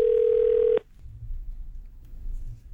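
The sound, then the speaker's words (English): A steady telephone dial tone hums evenly for under a second as a phone call is being placed, then cuts off abruptly, leaving only faint low background noise. “They got to make a really fun phone call today.”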